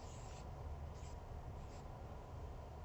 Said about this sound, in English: So let's draw our Samaritan.